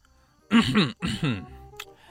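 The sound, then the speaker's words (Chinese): A person deliberately clears the throat with two short, rough voiced bursts, followed by a faint brief sound. “他拍了拍鸡哥的肩膀，故意清了清喉咙，朗声道”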